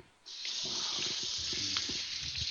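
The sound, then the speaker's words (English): Running tap water rinsing honey out of a measuring cup at a sink: a steady, even rush of water begins after a brief quiet moment and carries on with a few faint knocks underneath. “Just washing out the measuring cup here real fast. Get the honey out of it so it won't be sticky”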